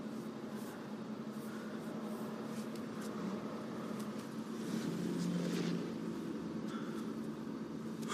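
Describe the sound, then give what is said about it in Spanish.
A car driving alone at night: a continuous engine and road drone that swells slightly midway and then settles back to an even level. “¿Quieres saber qué hago yo por aquí? ¿En plena noche conduciendo solo?”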